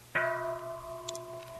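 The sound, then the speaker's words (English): A meditation bell is struck once during a dharma talk, giving a clear, resonant ring with several steady overtones that sustain and slowly fade. No voices are heard. “So if I ring the bell,”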